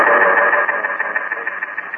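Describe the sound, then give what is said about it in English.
A pump runs in a pitch-black room down a flight of stairs, a loud, steady mechanical drone with a mid-pitched buzzing tone that settles into a faint rhythmic pulsing, alone without voices. “There was some kind of pump.”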